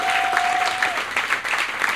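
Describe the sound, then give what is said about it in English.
Applause from a live studio audience, a brief burst of dense, steady clapping with no break. “Let's give yourselves a round of applause.”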